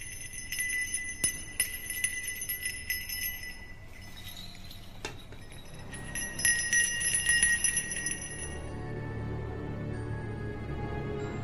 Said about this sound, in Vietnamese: Còn ma lai chỉ có dãy rủa theo tiếng chuông đang vang lên.